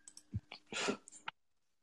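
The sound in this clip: Clicking from typing a search into a computer: a few sharp, faint clicks and one short noisy burst, then quiet.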